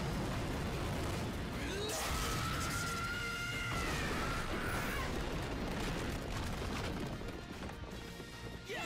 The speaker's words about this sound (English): Show him some real muscle. Afterburners, fire.